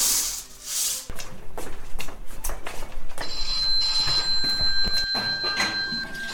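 A telephone rings in a house where a nurse is tending a patient: a steady, bright electronic tone starts about halfway through and holds, over earlier clattering household noises.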